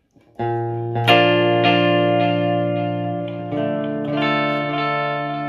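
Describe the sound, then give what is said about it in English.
Notes played through a drip delay effect on an effects unit: a few struck notes ring out as loud, bright, sustained harmonic tones, with their repeats overlapping and blurring into a continuous shimmering wash. “Let's do, this is the first delay on here. It's a drip delay.”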